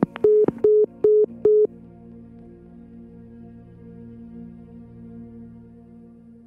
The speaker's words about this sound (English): The caller has hung up.